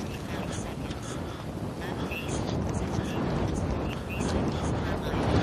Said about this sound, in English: I'm walking into the wind and it is cold. It's got under my jacket.